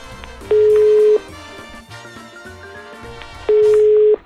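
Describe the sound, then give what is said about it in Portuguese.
Telephone ringing tones sound while a call is being placed: two long, steady, mid-pitched beeps separated by a pause of a few seconds, standing out loudly over continuous background sound. “Ligando para Laura.”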